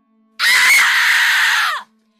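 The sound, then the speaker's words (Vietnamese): A woman screaming loudly: one high, piercing cry held steadily for about a second and a half, then cut off abruptly, heard alone. “Tôi bịt chặt hai tai lại rồi hét lớn.”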